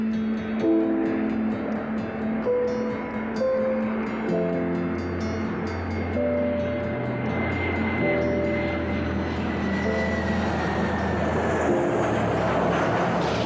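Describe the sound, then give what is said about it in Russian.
An airplane high in the sky gives a loud, steady engine drone that carries unbroken throughout, with no talk. “Самолет высоко в небе.”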